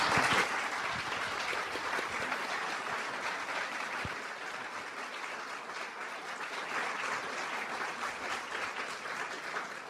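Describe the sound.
An audience applauding to welcome two speakers at a talk on American Buddhism, with a sustained, dense crackle of many hands that starts strongest and stays fairly steady for about ten seconds.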